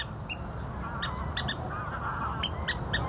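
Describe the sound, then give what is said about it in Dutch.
Short, sharp squealing calls of a water rail in reedbeds, several calls in quick pairs and small clusters over a steady low background hum. “Dit is een waterral.”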